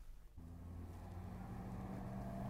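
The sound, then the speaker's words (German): A car engine runs on a street as the car is flagged down to stop: a faint, low, steady hum that grows slightly louder, heard alone with no voices. “zusammen mit seiner Braut Effie Marconi, hilfesuchend ein Auto anhielt”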